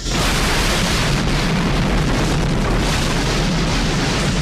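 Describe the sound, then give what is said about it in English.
Explosives blast through a ceiling, giving a loud, dense, roaring rumble that holds steady at full strength for the whole stretch without a break. “The explosives blow through the ceiling.”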